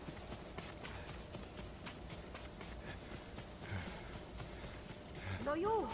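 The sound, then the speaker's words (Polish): Horse hooves clip-clopping in a video game, a steady run of hoof beats that continues throughout over a busy background of other game sound, growing slightly louder toward the end. “O, nasze konie są.”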